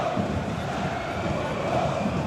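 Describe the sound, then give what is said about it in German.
Applause from Bochum fans in a football stadium, a dense, steady wash of clapping and crowd noise that holds at an even loudness throughout. “Und dann ist der Ball trotzdem weg und es gibt wieder den Applaus der Bochumer Zuschauer,”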